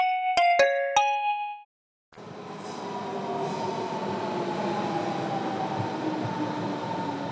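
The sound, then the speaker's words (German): A new subway train: a short bright chime of a few struck tones, a brief silence, then a steady rolling rumble of the moving carriage with faint high wheel squeal held throughout. “Das ist sogar eine neue Bahn. Das ist doppelt gut.”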